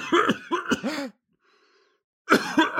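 Harsh coughing after a hit from a bong: a quick run of rough, hacking coughs, a short silent pause, then another loud burst of coughing, with no talk.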